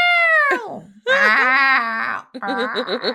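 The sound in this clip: A person's voice imitates a screaming cat in three drawn-out, loud wailing yowls. The first slides down in pitch, and the later ones waver and quaver.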